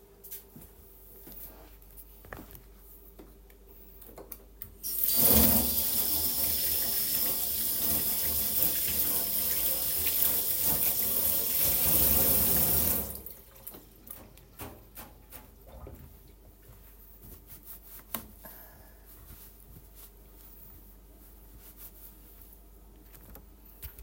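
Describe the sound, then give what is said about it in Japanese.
Water runs from a tap as hands are washed under it, a steady rushing spray lasting about eight seconds that starts and stops abruptly, with quiet stretches before and after. “ちょっとお手で洗う。”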